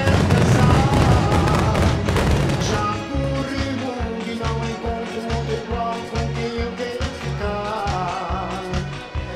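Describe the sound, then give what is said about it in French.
Fireworks in a movie trailer open with dense, loud crackling bursts that sound like gunfire, then give way after a few seconds to music with a steady, pulsing rhythmic beat. “sur les images, ça rend pas pareil parce qu'on entend des tirs, mais son feu d'artifice.”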